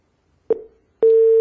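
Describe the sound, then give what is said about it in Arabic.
Telephone tone after a dropped call on a phone-in line: a brief decaying beep, a short silence, then a steady mid-pitched tone that holds to the end. “انقطع اتصال أبو ناصر، يحاول الاتصال بنا مرة ثانية.”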